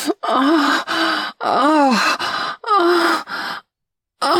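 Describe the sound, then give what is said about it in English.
Loud groaning from a person during sex: a run of several breathy, voiced moans with swooping pitch, separated by short gaps, then a longer silence before one more begins. “I've never heard you groan so loud.”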